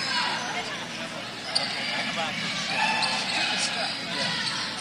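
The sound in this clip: A basketball bounces on a court during a Minster Wildcats game, one sharp thump standing out above a steady murmur of crowd noise.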